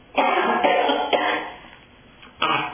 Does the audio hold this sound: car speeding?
no